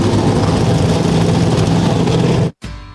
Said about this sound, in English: 38 Xfinity Series engines come to life down on pit road.